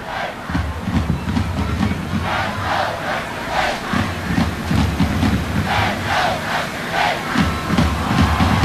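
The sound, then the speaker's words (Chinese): Cheerleaders cheer loudly with drumbeats at an Enshi football match. A dense crowd chant carries steady, evenly spaced drum thumps that keep a regular rhythm throughout. “恩施的啦啦队依然是伴随着整齐的鼓点在现场为自己的球员们加油鼓劲。”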